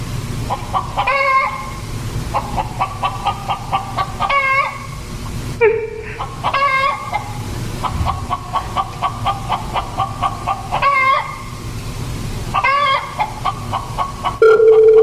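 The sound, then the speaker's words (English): A chicken clucking inside a room, with many quick runs of rapid clucks in repeated bursts across the whole stretch and a few sharper, louder squawks between them. “There's a chicken inside my room.”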